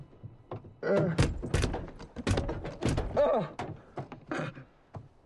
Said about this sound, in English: The man tries to open his door, pushing against it with his body.